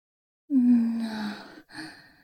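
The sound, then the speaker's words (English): A deep, drawn-out voiced inhale taken to savour a person's scent: a long breathy tone slowly falling in pitch, then a shorter second breath, heard alone. “Now, please excuse me while I and my students inhale you deeply.”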